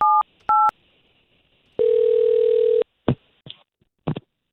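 A telephone call being placed: two short keypad beeps, then a steady tone of about a second, followed by a few faint clicks.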